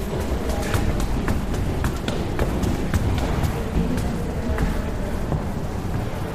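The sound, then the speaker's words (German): Footsteps climbing many stairs inside the Berlin Cathedral: a long, steady run of quick, regular steps over a constant noisy background. “Der Weg dorthin führt uns erst einmal quer durch den Kirchenraum des Berliner Doms. Und natürlich jede Menge Treppen nach oben,”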